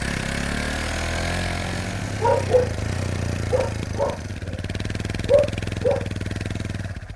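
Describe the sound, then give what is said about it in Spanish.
Motorcycle engine idling with a steady low rumble throughout, while a few brief higher-pitched bursts rise over it partway through. “Se vino con ese loco de Pedro en moto.”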